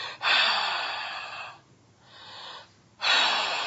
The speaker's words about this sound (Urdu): حلق سے آپ کچھ سانس نکالیں گے نا اپنی یوں,